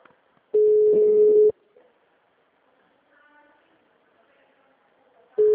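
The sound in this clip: Telephone ringback tone heard by the caller during an outgoing call: a steady, low, buzzing tone lasting about a second, then several seconds of near silence with faint background sounds before the next tone begins at the very end.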